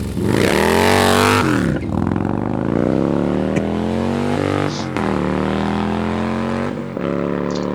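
A motorcycle engine with a black anodized finish, gently ridden, runs steadily with a loud, low, rich drone. The pitch lifts slightly a couple of times in mild revs, with no voices over it.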